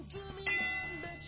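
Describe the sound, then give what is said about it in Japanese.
A gong struck once to start a round in a game: a sharp metallic hit that leaves a ringing tone slowly fading away. “ゴングが鳴ったらね。”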